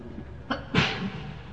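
A single sneeze interrupts a religious lecture: a short, sharp intake of breath followed by an explosive burst, then quiet, with no speech.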